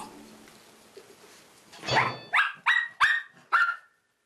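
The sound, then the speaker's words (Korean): Dogs barking in an empty hallway, an anxious dog barking hard with a second joining in, five loud, sharp barks in a steady run. “결국 목이 터져라 지저대는 가루. 그리고 덩달아 짖는 로이까지.”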